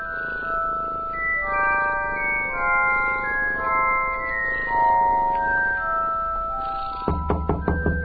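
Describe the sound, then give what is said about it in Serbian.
Someone knocks in a rapid series of sharp raps near the end, following a stretch of soft melodic music with held tonal notes. “Mama, opet neko kuca.”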